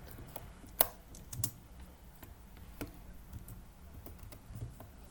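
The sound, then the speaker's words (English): Someone types on a computer keyboard, a few faint key clicks and taps spread at an irregular, unhurried pace with short pauses between them. “And if you can hear a typing noise, I'm redoing the name of the podcast as it's being recorded”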